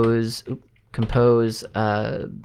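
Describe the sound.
Keys tapped on a computer keyboard while entering a compose-key sequence for an accented letter; faint clicks sit under continuous talk.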